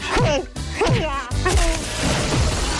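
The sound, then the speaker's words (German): A head banging hard against a wall several times: a few sharp, loud whacks and thuds, with a strained, wavering voice crying out between the blows. “Schlagen Sie Ihren Kopf mehrmals stark gegen die Wand.”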